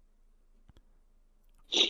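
A single short, sharp sneeze bursts out near the end, after a stretch of near silence broken by a couple of faint soft clicks.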